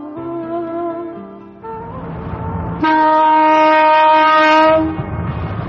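A train bound for Gaza nears a bridge, its horn blaring in sustained, steady-pitched blasts over a continuous rumble of the running cars, with the final, loudest blast held for a couple of seconds before dropping back to the rolling rumble.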